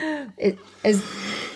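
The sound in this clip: A person coughs and clears a tickle in the back of the throat: a brief voiced sound, then two short, rough bursts close together.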